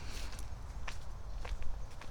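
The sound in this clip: Faint footsteps walking along a forest path: a few soft, irregular steps over a steady low background hiss.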